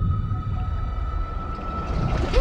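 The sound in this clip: A whale call sounds in an underwater setting: a long, steady tonal moan holds throughout over a dense, rumbling wash of water noise.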